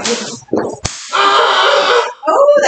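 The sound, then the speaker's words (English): A dragon tail whip strikes a person with one sharp, sudden crack. The snap is set between stretches of people talking. “The trick with the dragon tail is you have to have good aim.”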